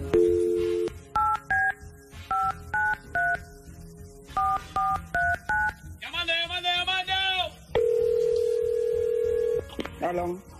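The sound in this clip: Telephone keypad tones from someone dialing a phone during a radio call-in contest. Many short, dual-pitched beeps come in uneven quick groups, with a longer held steady tone and a few more beeps after them.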